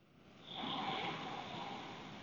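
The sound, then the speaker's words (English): One deep, slow breath drawn from the diaphragm rises and then holds as a soft, airy rush, faint and alone. “three of these beautiful, deep pranic breaths. I find three is a good number”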